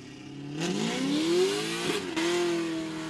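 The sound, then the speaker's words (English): Pontiac G8 accelerating very hard at a cars and coffee meet: the engine note climbs steadily in pitch, dips briefly near two seconds as the gear changes, then climbs again, loud and alone. “Is about to do a very big pull. So a pull is when they just accelerate really hard.”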